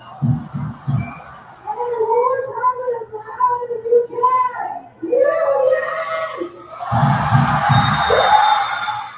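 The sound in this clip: A stadium crowd at Morrison Stadium, Creighton University, at the start of a match: wavering yelled and chanted voices rise and fall, then a dense, loud roar swells over the final seconds.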